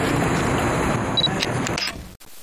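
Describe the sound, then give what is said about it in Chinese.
A camera takes a photo with a single sharp shutter click near the end, following people talking over background noise. “准备拍照啦！”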